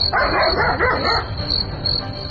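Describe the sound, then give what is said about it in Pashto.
A dog barks in a drama scene set in a house at night: a few loud barks in quick succession, then quieter, with a steady high whine throughout. “دلته خوشحالي نه ښکاري، نه پوهېږم چې دا سپی ولې غاپي.”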